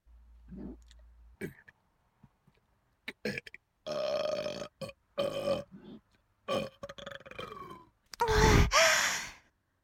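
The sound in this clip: A long, loud burp near the end, preceded by a series of short breathy sighs and wet mouth sounds.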